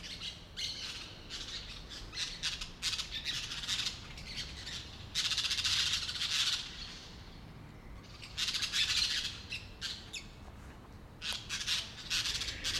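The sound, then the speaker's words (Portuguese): Parakeets squawk loudly and continuously in harsh, clustered bursts, many shrill calls overlapping with brief gaps between flurries, and no talk. “E a tática que esses periquitos não deixam mais ninguém falar. Só eles.”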